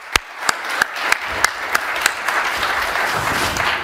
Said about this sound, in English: And he does deserve a hand, guys.